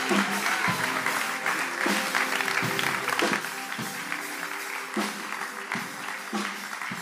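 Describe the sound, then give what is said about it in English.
Church audience at C3 Powerhouse applauds a guest pastor: broad, steady clapping over sustained musical tones, with the applause holding its level throughout. “So I want us to put our hands together and give a great C3 powerhouse welcome to Pastor Dean Rush.”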